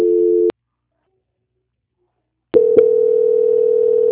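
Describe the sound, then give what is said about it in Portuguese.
Steady telephone tone during a call transfer at a bank's quality-control line: a half-second burst, about two seconds of silence, then a continuous tone to the end, broken once by a soft click. “Peraí, vou transferir. Tá. Transferência.”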